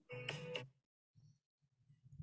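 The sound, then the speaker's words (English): A mobile phone goes off with a short, bright ringtone burst, then a few quieter low tones follow in the near-silence. “what's happening? My phone just like went off.”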